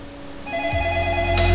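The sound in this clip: A telephone rings with an incoming call, a steady electronic ring with layered tonal harmonics that grows slightly louder toward the end. No one talks.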